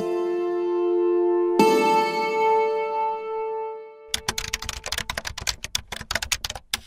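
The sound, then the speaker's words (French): Typing a search on a computer keyboard: a rapid clatter of many keystrokes. It follows a sustained tonal musical drone that fades out before the keys begin. “C'est un drôle d'exercice. Taper fusillade États-Unis sur Google.”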